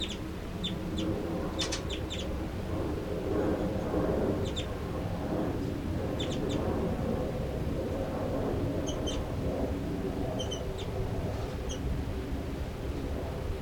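Bird chitters and calls: short, high chirps in a few scattered clusters over a steady low rumble of background noise, fairly faint throughout.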